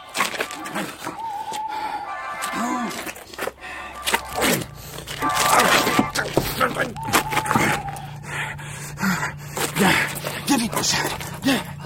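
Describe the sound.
A dog whimpers in a few thin, high whines, with soft thumps and shuffling, while a voice talks over it for much of the time.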